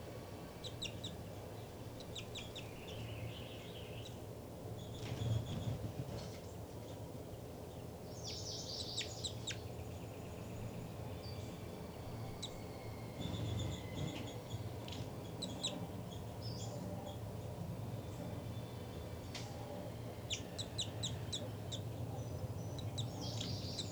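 Nesting birds call back and forth at a nest while a parent returns to feed its chicks. Short, thin chirps come in a few scattered bursts over a steady low background hum.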